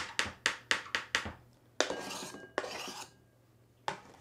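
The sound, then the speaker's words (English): A knife chops peeled kiwi into small pieces on a hard surface: a quick, regular run of sharp taps, then two longer scraping strokes, and finally one last knock. “So now I'm going to chop it up into small pieces.”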